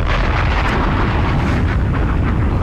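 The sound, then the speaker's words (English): A bomb explosion sound effect, a loud sustained roaring rumble that fills the whole clip without distinct separate bursts. “Bombs!”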